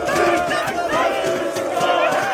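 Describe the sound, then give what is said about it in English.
A crowd chanting at Turkish street protests that began on March 19 over the annulment of Ekrem İmamoğlu's university degree. Many voices sound loud and steady together throughout the brief stretch. “This is the sound of Turkish protests that began on March 19th,”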